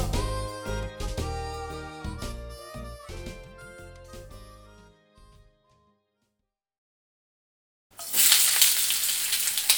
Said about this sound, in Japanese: 料理を作る音はいい音だね。